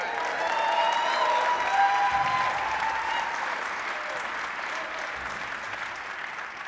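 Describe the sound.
Applause from the audience at a live concert, a dense and steady wash of many hands clapping that stays loud throughout and eases off slightly toward the end.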